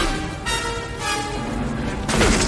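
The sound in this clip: Punch impacts from a film fist fight, a few heavy thudding hits over a dense, loud soundtrack bed, with the strongest blow near the end.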